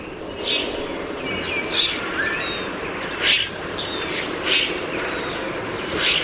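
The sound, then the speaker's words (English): A common grackle displaying gives squeaky, harsh chirping calls at fairly regular intervals, with about five louder bursts over a steady, noisy background hiss. “Common grackle displaying.”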